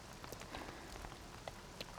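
Faint, steady rain falls on a surface, a soft continuous patter with scattered sharper drop ticks and no voices.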